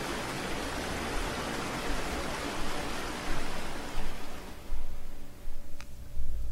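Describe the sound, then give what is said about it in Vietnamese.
Rushing waves of an underground sea make a dense, hissing wash of water noise. It is fairly quiet and even at first, then swells into several stronger surges in the second half, with no voices. “Vùng biển dưới lòng đất. Trải qua mấy tiếng đồng hồ gian nan chèo thuyền, con sóng ập đến trước mặt họ, cuối cùng cũng nhỏ dần đi.”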